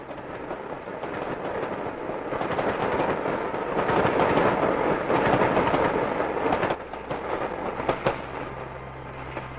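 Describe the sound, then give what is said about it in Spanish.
A freight train rumbles and clatters through a station at Lexington without stopping, heading north. Its loud, steady roar of wheels and cars fills the whole clip and eases slightly near the end. “Se acerca un tren. Pero no es el que estamos esperando. Por supuesto que no. Es el de carga que pasa hacia el norte.”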